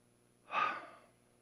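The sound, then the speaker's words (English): A single deep breath, a soft airy rush that swells quickly and then fades over about half a second, heard alone with no talk. “So before we begin, I want us to take another breath.”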